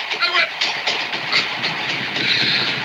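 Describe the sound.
A train rolling along the rails with a steady rushing roar and a rhythmic clickety-clack of wheels over track joints, loud and continuous throughout.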